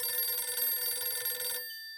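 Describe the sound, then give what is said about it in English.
A red telephone rings with a bright, continuous bell trill that runs loudly for about a second and a half, then cuts off abruptly, leaving a faint ringing tail. No voices. “Damn it, it's the red phone again.”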